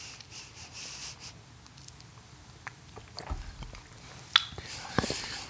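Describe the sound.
Soft chewing and biting while tasting smoked sausage, with faint scattered clicks and mouth sounds growing a little sharper toward the end.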